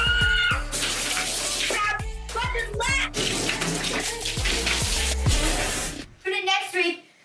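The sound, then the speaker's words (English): Juice is poured over a person's head in gushing, splashing bursts of liquid, and a voice is heard at the end. “What kind of juice I pour in my head next time.”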